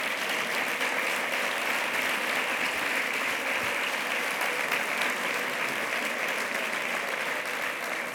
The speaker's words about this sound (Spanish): se ha notado que el concejal del distrito estaba ahí preparando ese aplauso